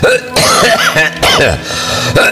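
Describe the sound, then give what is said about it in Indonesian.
Harsh coughing and throat-clearing from an elderly man, several loud rasping bursts broken by brief pauses, with strained voiced sounds mixed in. “Punten keur batuk ieu teh Aki mah maklum geus kolot tenan.”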